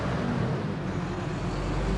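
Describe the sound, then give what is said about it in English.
A big truck heads up a main street in a low gear, producing a continuous deep engine rumble and broad road noise that stays loud and steady throughout, with no distinct separate events. “It's a big truck heading past, heading up at the main street and using a nice low gear.”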